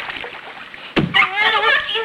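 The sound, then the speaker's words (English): Water splashes as someone bangs the surface wildly. A sudden sharp splash is followed by continued churning water noise, with a voice crying out over it. “He bangs the water, splashing wildly.”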